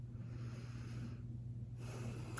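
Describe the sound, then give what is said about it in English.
A deep breath in and out during a mock doctor's check-up: two soft, airy rushes of breath separated by a brief quiet pause, steady and low in level, with a faint hum beneath and no talk. “So just take a deep breath for me.”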